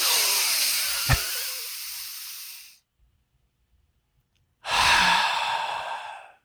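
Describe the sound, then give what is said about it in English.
A voice imitates exaggerated deep breathing in two long, loud, hissing breaths. The first lasts nearly three seconds and fades out, then after a stretch of silence the second starts strongly. “Nobody breathes like this. And if you do need to breathe like this because you think it's calming,”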